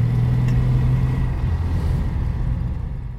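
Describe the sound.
A car drives into the parking area of a municipal sports ground, its engine humming steadily with a low droning tone that eases slightly in level as it rolls in.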